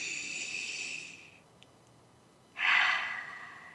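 Deep collective breathing from a group during a guided breathing pause: a long, soft, airy hiss fades out, then after a quiet gap a second, louder breath swells, with no talking.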